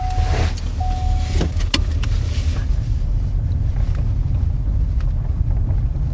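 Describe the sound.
A car drives around the perimeter of a landfill beside an airport, producing a steady, loud low rumble of engine and road noise mixed with wind buffeting, with a few faint, brief tones early on.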